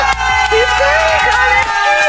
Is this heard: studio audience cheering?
yes